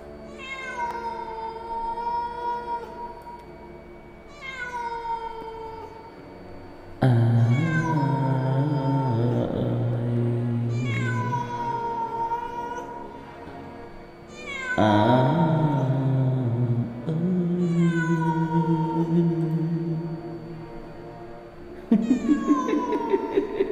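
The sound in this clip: A cat yowling mournfully in a series of long, drawn-out, wavering cries, loud and plaintive, with brief pauses between the calls.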